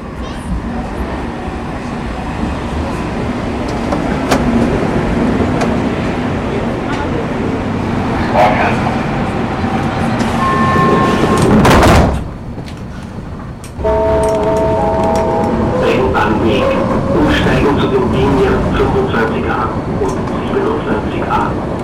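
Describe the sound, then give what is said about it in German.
A Vienna U-Bahn subway train pulls into the station with a steady rumbling roar that swells to a loud rushing burst. A brief dip follows, then the roar resumes with a few short tonal chimes over it. “Schon da kommt die U-Bahn. Wunderbar.”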